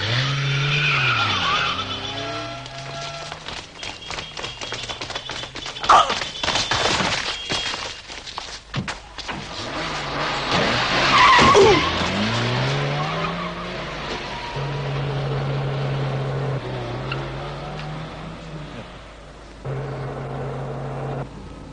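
A taxi speeds hard with a droning, revving engine whose pitch sweeps up and down while its tires skid and squeal, and loud surges of skidding break out twice before the engine settles into a steady hum.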